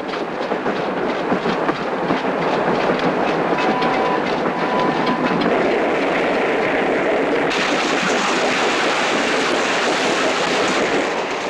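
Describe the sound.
A passenger train with bunk-lined cars runs through an icy landscape at night, giving a loud, continuous rumble and steady clickety-clack of wheels on rails that holds throughout.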